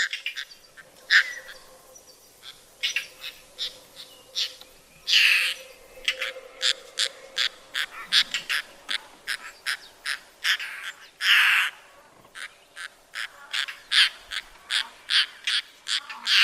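Recorded song of a declining bird species: many short, repeated call notes in a steady, fairly quick rhythm, with a few louder, broader bursts between them over a faint, low background.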